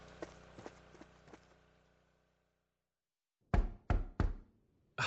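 Knocking on a door: a quick run of loud, hollow knocks after a near-silent pause, preceded by faint, soft tapping, with another knock starting right at the end.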